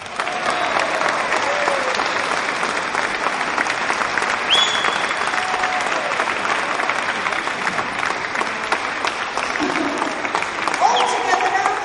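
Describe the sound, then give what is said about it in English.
An audience gives a warm welcome to a guest at a memorial tribute, with sustained, loud applause that keeps an even level throughout. “Will you please give a warm welcome to Miss Anita Harris?”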